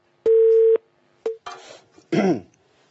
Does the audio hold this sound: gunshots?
no